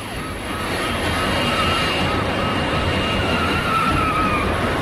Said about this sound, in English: As the van picks up speed, the plane carries on taxiing.